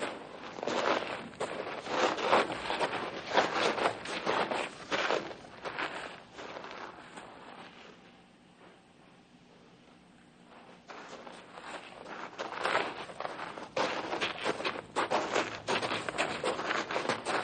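Several men walking on a long trek make a steady rhythm of many footsteps. The steps fade to a quiet stretch midway and then resume at full strength, with no talking.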